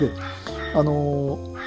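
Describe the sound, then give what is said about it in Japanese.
A dog barks and yelps in drawn-out, tonal whining cries that hold steady for moments at a time, while a man's voice speaks briefly alongside. “ちょっと犬がうるさいと思うんですが、”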